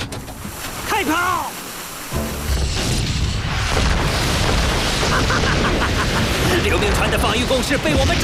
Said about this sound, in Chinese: 先用大炮把他们的防御工事炸个稀烂。预备，开炮！